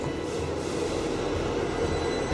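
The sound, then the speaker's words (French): Steady rumble of a metro train in motion, a continuous low roar with broad hiss that holds at an even level throughout, with no voices. “Allez, tous dans le métro.”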